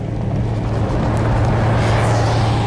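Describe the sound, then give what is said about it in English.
An armored vehicle engine drones loudly and without a break: a low, steady hum under a broad, noisy roar, with no voices. “Where does this armored vehicle come from?”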